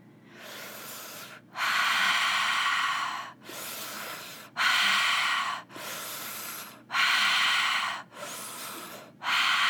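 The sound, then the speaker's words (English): Rhythmic, fast breathing in a guided breathwork session. Quieter and louder breaths alternate steadily, each lasting about a second, with short gaps between and no talk. “Speeding up your breath, following the sound of mine.”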